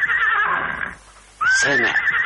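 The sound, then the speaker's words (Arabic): A purebred horse whinnies loudly in two long, high, wavering neighs separated by a short quiet pause. The second neigh starts with a sharp rising onset and then holds steady. No voices are heard. “سامع حصانه؟ حصان اصيل.”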